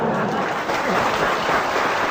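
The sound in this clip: Applause from a crosstalk comedy audience, a dense, steady wash of clapping hands that stays loud and even for about two seconds with no pauses.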